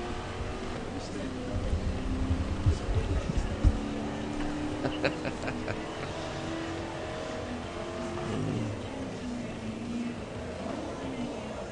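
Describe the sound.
Car engine from a racing video game played on a PS3 drones and revs steadily as the driver throws a big car through a corner, with short sharp bursts midway. People talk over the game audio.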